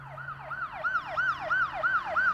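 Siren sound effect in a rapid yelping pattern: the tone sweeps up and down over and over in quick, even cycles, steady and alone without voices.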